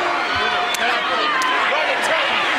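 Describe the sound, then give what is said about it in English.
Open-hand slaps in a wrestling match land on a wrestler whose arms are held back across the ropes. Three sharp, brief cracks come at even intervals over a constant crowd roar, with voices talking underneath. “That sound you heard was Flair slapping Sting. The Andersons are holding his arms back across the ropes. And Sting is getting slapped.”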